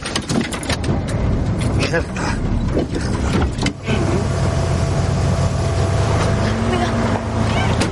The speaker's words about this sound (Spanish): Ella se sube, las puertas traseras están abiertas. El padre conduce marcha atrás. Él frena.